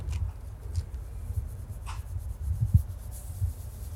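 Chalk strokes going over a drawing again and again to darken the color, a soft, fairly faint scratching and rubbing made of many irregular strokes.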